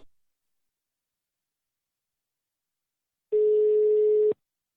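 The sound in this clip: A telephone ringing tone plays during an outgoing call: one steady, mid-pitched burst about a second long, alone after silence.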